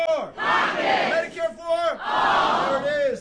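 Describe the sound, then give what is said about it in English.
A crowd chants a campaign slogan in unison at a Democratic Senate candidate's town hall in Michigan, loud shouted phrases repeating in a steady rhythm. “If you go to one of Democratic Senate candidate Abdul El-Sayed's town halls in Michigan, you will hear the crowd chant the campaign slogan.”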